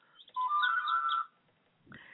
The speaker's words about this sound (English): So I better answer this phone. Whoever it is calling me is getting very insistent.